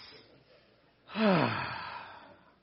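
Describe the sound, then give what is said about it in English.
A group of people takes a deep breath together at a morning gathering. After a quiet second, the breath swells in suddenly and loudly, then trails off into a long, slowly fading, sigh-like exhale. “Would you all just take a deep breath?”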